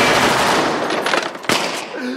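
Rapid gunfire makes a dense, harsh crackle of many shots that gradually thins out, with one sharp report standing out near the end.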